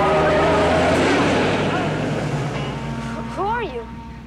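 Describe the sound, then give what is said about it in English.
Loud engine roar of a commandeered vehicle speeding off, strongest at first and gradually fading over several seconds, with a short voice call near the end. “Storm commandeers the vehicle and speeds off”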